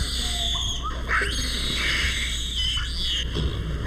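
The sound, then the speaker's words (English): Guinea baboons squalling at a zoo, shrill wavering squeals that overlap and rise and fall over a steady background hum. “Among the less musical primates at the San Diego Zoo are these squalling guinea baboons,”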